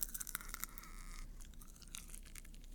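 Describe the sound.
Popcorn being eaten: many faint, crackly crunches and chewing clicks in quick irregular bursts, quiet throughout.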